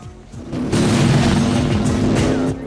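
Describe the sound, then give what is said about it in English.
A motorbike thundering past and roaring away through dust: a loud, sustained engine roar that swells in after a quieter start and holds steady to the end. “A motorbike thunders over it and roars away through the dust.”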